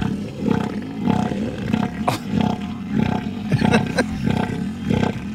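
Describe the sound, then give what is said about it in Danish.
An elephant seal roars on land with a deep, guttural, pulsed call. Many rapid throbbing bursts repeat in a steady rhythm, loud and without talk. “skal vi lige prøve at høre, hvordan lyder sådan en søelefant?”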